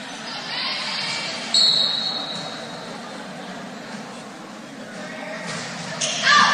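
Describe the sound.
A volleyball serve during a match at the Portside Fieldhouse, an ace: a sharp ball strike stands out over a steady hum of gym noise, and a second hard impact follows near the end.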